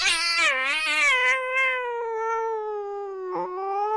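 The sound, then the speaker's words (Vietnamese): A cat yowls miserably from inside a cupboard in one long, drawn-out, mournful wail. It wavers and slides lower at first, then holds steady and loud, with a brief break near the end and no voices. “Trong tủ, nơi tầm tay cậu, đột nhiên vang lên một tiếng mèo kêu lên thảm thiết.”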